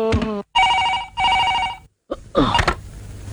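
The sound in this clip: A telephone ringing in two bright, steady bell-like bursts of about half a second each, separated by a short gap, with other brief sounds before and after the rings.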